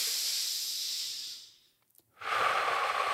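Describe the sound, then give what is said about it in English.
Breathing in through the nose and out through the mouth during a guided breathing exercise: one long airy breath in, a brief pause, then a strong hissing breath out. “breathe in through your nose. Pause. Out through your mouth.”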